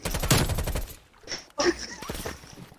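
Video game gunfire crackles in a dense rapid burst of automatic shots for about the first second, followed by a few scattered shots of varying loudness.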